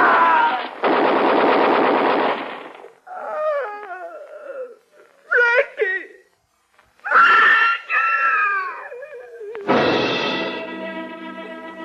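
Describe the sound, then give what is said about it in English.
Machine-gun fire rattles in a long, dense burst near the start and another at the end, with screaming voices in between. “Below there, machine guns,”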